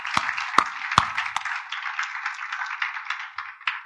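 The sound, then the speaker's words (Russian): An audience claps for the helpers who packed gifts. A few sharp, separate claps open the sound, then a quieter stream of scattered clapping follows, with many small overlapping hits at a fairly low level. “Поэтому давайте просто похлопаем сейчас этим ребятам за то, что они так хорошо потрудились вчера.”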